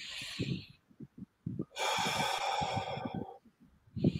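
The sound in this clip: Slow, audible breathing during a calm relaxation exercise, including one long airy breath that lasts well over a second.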